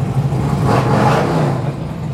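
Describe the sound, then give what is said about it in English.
Engine rumble of a Harley motorcycle at a bike night, a low, loud, steady throb that swells slightly midway and then settles back. “So, yeah, more bikes pulling in or out. I'm not sure what they're doing. But Noob's I'm off. Sure they'll wrap it a few more times before they pull out. Right. Gotta make sure it's running. Just make sure it's running, yeah. Harley.”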